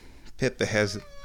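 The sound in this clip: A house cat meows at home after its owner comes back: a short meow followed by a longer, drawn-out one, both loud and clear in quick succession.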